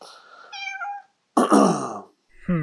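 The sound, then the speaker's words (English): A pet cat meows a few times, drawn-out harmonic cries with a louder, rougher middle call and a rising final meow, heard alone with no talk. “ladies and gentlemen, this is my cat”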